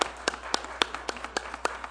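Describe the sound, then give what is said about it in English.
Sparse hand claps during a church service, a steady series of crisp individual claps at a fairly even rhythm, with no voices over them. “Yes, that definitely deserves applause.”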